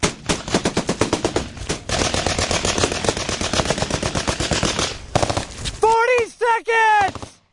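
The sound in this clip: Loud, rapid machine gun fire in continuous rattling bursts during combat, running for several seconds before a man shouts.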